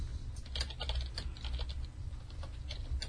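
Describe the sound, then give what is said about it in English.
Typing on a computer keyboard: a steady, dense run of quick, light key clicks that keeps going without a break, with no voices. “I can't type and talk at the same time.”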